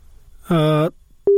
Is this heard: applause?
no